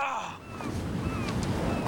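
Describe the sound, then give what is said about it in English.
Pacific Ocean waves crash in among the pylons beneath a pier in Venice, California, a brief, broad rushing roar of surf that swells and stays loud, with low rumbling churn throughout. “Waves come crashing in through the pylons.”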